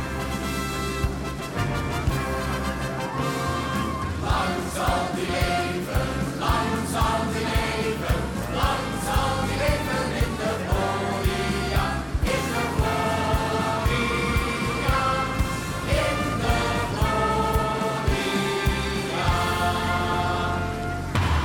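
A congratulatory birthday jingle made for a radio host plays as dense, loud music, steady and full throughout, with a driving beat and bright layered tones.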